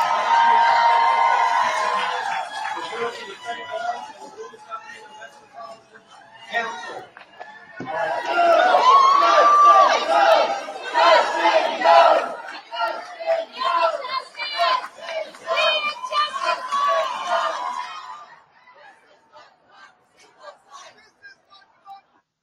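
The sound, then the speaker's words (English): Crowd cheering and shouting as Tennessee state representative Justin Jones returns to the House floor after his expulsion. Loud waves of mixed voices come in several bursts with short lulls, then fall away near the end. “that was just a little bit of what happened last night as Justin Jones returned to the House floors to cheers.”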